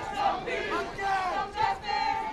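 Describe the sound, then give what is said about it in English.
Hundreds of protesters at a George Floyd rally chant together in unison, the massed voices swelling and dipping in a repeating rhythmic pattern, loud and insistent. “A crowd of hundreds, many holding posters reading, "I Can't Breathe," with pictures of George Floyd, chanted, "No justice, no peace."”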